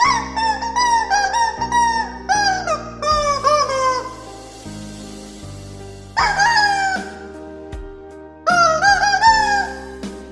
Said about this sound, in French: Je t'ai dégoté la même rhapsodie au poulet en plastique.